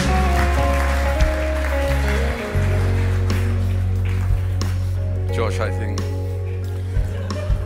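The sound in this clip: Applause from the Soul Church audience welcoming a guest speaker, a loud, dense, steady patter of clapping over sustained low music tones that continues throughout.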